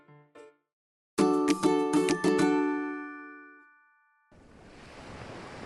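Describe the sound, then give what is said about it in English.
Ocean waves wash onto a beach as a steady, broad hiss of surf near the end, after a few ringing chime notes that sound together and slowly fade out. “I celebrate at the beach. Ocean.”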